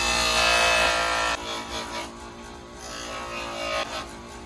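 A power tool grinds a part flat while it is being modified, producing a loud, steady, high-pitched rasping whine for about a second and a half. The sound then drops to a quieter, uneven grinding that rises and falls.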